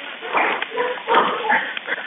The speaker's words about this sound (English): I want to point out the dogs. You can hear the dogs barking.